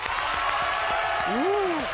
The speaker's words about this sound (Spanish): Y vienen con muchísimo público, que suena así.